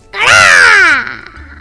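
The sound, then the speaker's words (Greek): A crow gives one loud, harsh caw that is drawn out and rich in overtones and slides gently downward in pitch before cutting off, with no voices. “Εκείνο τότε έβγαλε ένα δυνατό κρόξιμο”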